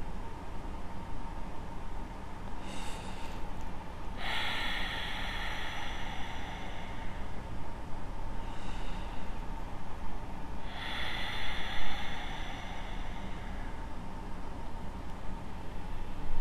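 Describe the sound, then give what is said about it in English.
Slow, deep breathing during a calming yoga class, with long drawn-out exhalations. A few soft, airy breaths rise and fade over a steady low background hum, each exhale stretching for several seconds. “Maybe longer on the exhalations, really calming the nervous system in this respect. But making sure the breath is not shallow in either direction.”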